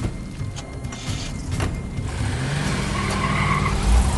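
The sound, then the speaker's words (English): A USDA truck speeds away, its engine roar and rushing road noise swelling steadily, with a low rumble growing louder toward the end; tire skidding is not clearly distinct. “They speed away in opposite directions through the desolation left by the locust attack.”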